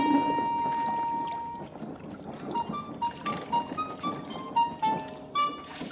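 A bucket drops into a well and is hauled up full of water in a film scene. A splashy rush comes first, then a series of watery gurgles, plops and drips follow.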